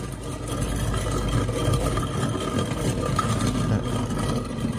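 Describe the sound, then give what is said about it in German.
A Rührfix geared hand-cranked mixer whipping produces a steady, continuous mechanical whirring and rattling drone. The loudness stays even throughout with no pauses. “Spiel doch mal bitte den Rührfix ab.”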